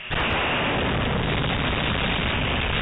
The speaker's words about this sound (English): That's the sound of the SLS tank ripping down its length after engineers pushed the test article to more than 260% of its expected flight load.